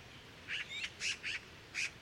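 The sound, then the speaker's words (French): Magpies exchange short calls: a handful of brief, quiet, squawky bursts, irregularly spaced over a low steady hiss. “Notre première pie s'en rapproche et elles échangent des petits cris.”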